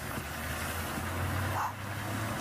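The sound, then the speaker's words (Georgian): A bus arriving at a stop in the Seychelles, heard as a faint, low, steady engine rumble with no clear rise or fall. “აი ავტობუსი, იმედი მაქვს მიუსრებ. ავტობუსით მგზავრობა 5 რუპია ღირს, გაცილებით ნაკლები ვიდრე ტაქსით წასვლა.”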